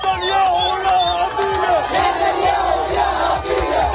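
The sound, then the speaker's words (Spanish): Hundreds of Palestinians in Khan Younis celebrate the Gaza ceasefire with loud crowd noise. Excited shouts and cries overlap over dense babble, and the roar stays intense throughout. “Cientos de palestinos, como escuchas, han salido para celebrar el acuerdo que pone fin, de momento, a la guerra en Gaza.”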